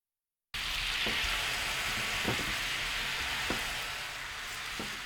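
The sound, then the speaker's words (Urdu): Soy sauce, sugar and water simmer in a frying pan over medium heat, giving a steady, soft sizzling hiss that starts after a brief silence, with a few faint ticks and pops scattered through it. “Frying pan کو دھو کر اس میں soya sauce, چینی اور پانی ڈال کر ملائیے۔ اب فرائنگ پین کو درمیانی آنچ پر رکھ کر سوس کو گاڑھا کر لیجیے۔”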